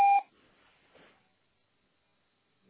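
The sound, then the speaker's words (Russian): A telephone voicemail system gives a single short electronic beep to signal the start of recording: a steady, mid-pitched tone lasting a fraction of a second, followed by faint low noise and then near silence. “Запись сообщения начнется после сигнала.”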